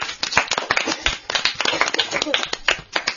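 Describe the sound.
An audience claps for a young girl who has recited the names of the stars, with brisk, irregular claps of varying strength and voices mixed in underneath.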